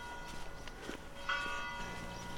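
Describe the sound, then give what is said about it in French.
A church bell rings faintly from the bell tower at Camiran, France. A sustained ringing tone hangs throughout, and one fresh strike lands near the middle and blooms brighter before fading back into the hum. “9h sonne au clocher de Camiran”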